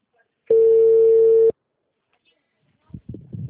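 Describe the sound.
A telephone busy tone follows a dropped call: one steady, mid-pitched beep lasting about a second, then silence before a voice begins speaking.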